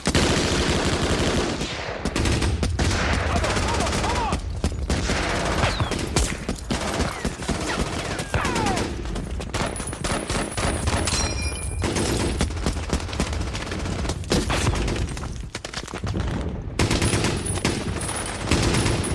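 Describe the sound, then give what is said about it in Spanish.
Machine guns lay down covering fire in long, dense bursts of rapid shots. The loud, sustained rattle carries on with only a few short breaks. “¡Invadan el nido de ametralladoras! ¡Sí, señor! ¡Davis! ¡De Bernardo! ¡Jan! ¡Paul! ¡Preparados! ¡Fuego de cobertura!”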